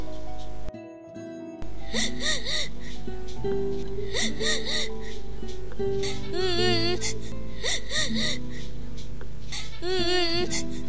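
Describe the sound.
A young girl cries, sad at having broken her Ramadan fast: repeated wavering sobs and whimpering gasps, steady and fairly loud across the whole stretch.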